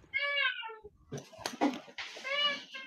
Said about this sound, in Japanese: 猫がうるさいけんごめんね、もうさっきから何回も